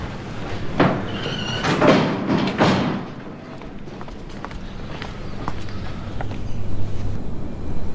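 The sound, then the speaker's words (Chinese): A door is shut, marked by a few dull thuds and shuffling steps in the first seconds, followed by a quieter stretch of low room noise with faint knocks. “把门关上。”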